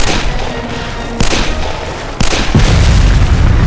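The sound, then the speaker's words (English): A makeshift bomb in a sack of ammunition explodes, with bullets going off: loud booming blasts and sharp cracking impacts over a continuous heavy roar that grows stronger toward the end. “The bag exploded in a thick haze of black smoke, and bullets zinged every which way.”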